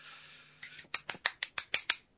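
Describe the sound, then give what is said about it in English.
One person clapping hands: a faint first clap, then a run of sharp, evenly spaced claps that stays fairly soft, with no voices. “Who was that clapping?”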